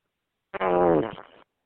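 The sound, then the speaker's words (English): A single fart, a buzzy, tonal blast lasting about a second that starts loud and then tapers off into a rougher, fainter sputter. “You farted there. What? You farted right there. It was you who farted.”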